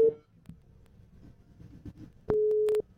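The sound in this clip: Telephone busy tone as a call is rejected: a brief steady tone cut off at the start, then another steady, mid-pitched tone of about half a second near the end.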